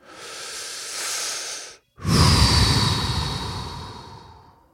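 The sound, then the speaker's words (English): A deep breath in and out: a steady, airy inhale, a brief silent pause, then a louder, fuller exhale that gradually fades away. “now is a good time to take a big, deep breath. So go ahead and do it with me. Come on, let's all do it.”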